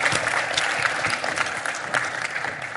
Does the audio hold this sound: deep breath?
no

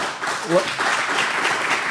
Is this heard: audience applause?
yes

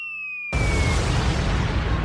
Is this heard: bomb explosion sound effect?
yes

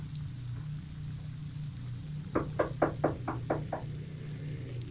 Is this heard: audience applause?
no

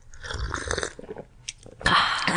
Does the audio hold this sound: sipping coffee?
yes

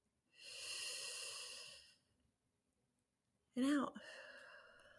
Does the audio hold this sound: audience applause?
no

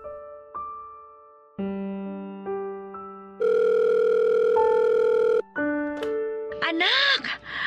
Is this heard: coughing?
no

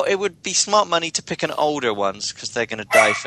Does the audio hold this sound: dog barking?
yes

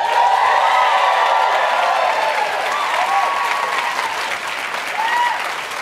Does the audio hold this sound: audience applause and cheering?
yes

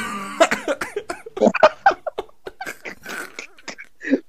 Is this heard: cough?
yes

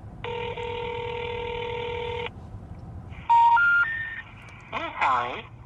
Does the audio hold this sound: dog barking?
no

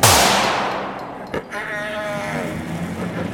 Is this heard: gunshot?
yes

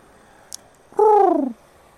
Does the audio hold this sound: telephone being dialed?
no

